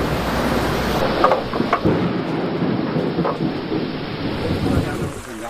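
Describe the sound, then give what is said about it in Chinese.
Thunder rumbles over heavy rain pouring down at an outdoor archaeological excavation, a loud, dense, continuous roar of rain and thunder with no voices. “席子的发掘工作被雷声打断，大雨随之而来。”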